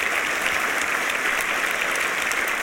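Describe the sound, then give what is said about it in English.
A church audience applauds a welcome with dense, steady clapping that holds at an even level throughout. “And would you give him a warm Mission Hills welcome?”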